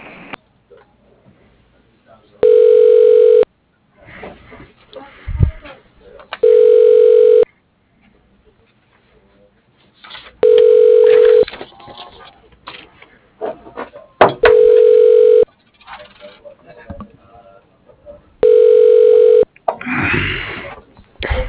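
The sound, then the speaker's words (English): Telephone ringback tones play while a call is transferred to an office extension. There are five long, steady, mid-pitched tones at an even interval of about four seconds, with faint noises in the gaps between them. “Please hold while I transfer you to Mitch Roberts”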